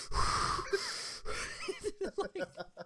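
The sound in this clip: A voice imitates heavy, ragged breathing. Wheezing, rasping inhales and exhales give way to a quick run of short, panting gasps toward the end.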